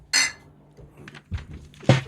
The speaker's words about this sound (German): Komm, dann stoßen wir mal an. Prost.